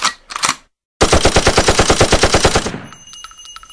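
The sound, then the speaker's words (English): Machine-gun fire as a sound effect: a dense, loud burst of many rapid, evenly spaced shots that cuts off abruptly. It comes after a couple of short earlier bursts and a brief silence, and a faint ringing tail follows. “You maybe want to call it a semi-automatic, but it sure did seem like a machine gun to me.”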